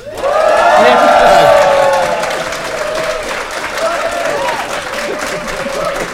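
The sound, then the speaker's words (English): Live audience applause and cheering at a conference event in New York, loud clapping and whoops swelling early, then settling into steady applause that continues to the end. “Make some noise, New York!”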